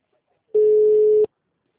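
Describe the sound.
A single steady telephone tone after a dropped call rings out once for under a second, mid-pitched and even, with nothing else around it.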